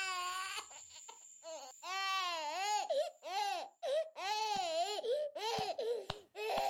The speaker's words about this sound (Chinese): 有个小婴儿被一位头发白苍苍的老奶奶捧在手里，哭啊哭的，好像永远没有停止的那天。